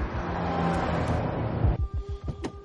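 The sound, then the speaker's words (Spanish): Car driving in an action film, with an engine rumble for nearly two seconds, then a series of sharp clicks and thumps. “Navas continúa conduciendo.”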